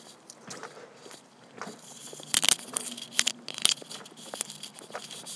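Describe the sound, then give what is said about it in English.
Footsteps of a person walking on a sidewalk with a ridge in it, heard as a few sharp, irregular steps that stand out over a steady background hiss. “I think this is my first audio boo where I've been walking and going at the same time. Oh, there's a ridge in the sidewalk, which I have to stop and, well, at least slow down for so that it's not so jarring”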